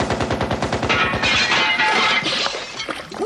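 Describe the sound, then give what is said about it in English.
A fake Kalashnikov rifle fires a loud, rapid burst of automatic gunfire, the shots coming in quick regular cracks that merge into crashing, shattering, glassy noise. “Oh, and look at this one, a fake Kalashnikov. I wonder what happens if I pull the trigger.”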